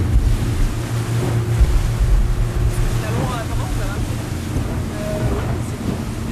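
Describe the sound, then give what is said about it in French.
A boat motor drones steadily as the vessel heads out to sea toward the reefs off northern Mayotte. Wind and water noise run throughout at a fairly even, loud level. “J'embarque en mer avec le parc naturel marin de Mayotte et le bureau d'études Marex lors d'une opération de suivi des milieux. Nous partons en direction des récifs du nord de l'île.”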